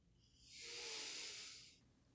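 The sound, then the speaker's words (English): Single soft breath, an airy hiss that swells smoothly, holds for about a second, then fades away. It is quiet and heard alone. “start enjoying the sound of your breath as music. Any sound that your breath wants to make audible”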